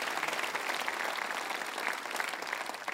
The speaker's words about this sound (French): est-ce qu'on peut applaudir ensemble?